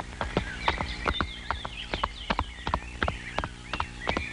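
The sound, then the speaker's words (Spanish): A horse's hooves clip-clop through many sharp, hollow strikes in a loose, uneven rhythm, with no talking. “¡Véngase, caballo! ¡Véngase, véngase! A ver, mi azioros, salúdenme. Parece chivito. ¡Párese, hermano! ¡Párese otra vez! ¡Ese es mi caballito, caramba!”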